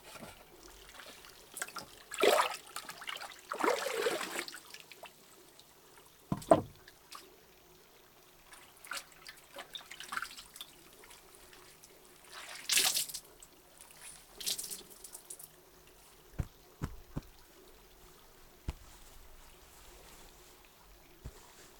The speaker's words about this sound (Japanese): ではお湯ですすいでまいります。